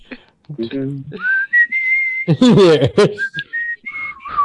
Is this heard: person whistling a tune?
yes